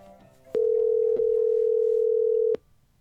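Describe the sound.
A telephone line tone for an outgoing call: one unbroken mid-pitched electronic tone lasting about two seconds, with faint clicks where it begins, briefly in the middle, and where it stops. There is no talk.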